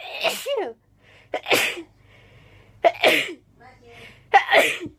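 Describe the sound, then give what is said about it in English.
A woman has a rapid sneezing fit while sitting in bed. Four sharp, loud sneezes come roughly a second apart, with quick, faint breaths between them. “But by far her most viewed video is titled Rapid Sneezing Fit. It sounds like this.”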